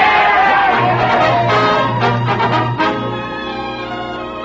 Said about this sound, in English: And then they all stood up and cheered for me.